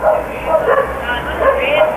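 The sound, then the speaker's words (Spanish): Dogs bark at night, giving several sharp barks and yips in quick bursts with short gaps between them. “Ahí están. Ladran los perros.”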